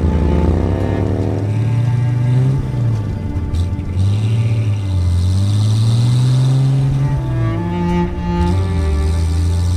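Engines rev loudly and continuously, their pitch repeatedly climbing and dropping as the throttle is worked, with no pause in the roar across the whole stretch.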